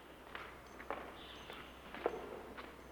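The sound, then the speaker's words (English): Footsteps pass down the nave of an old, crumbling church, faint and evenly paced, a handful of soft steps in a slow walking rhythm with no voices. “They walk down the centre of the nave, passing an elderly man with a stick.”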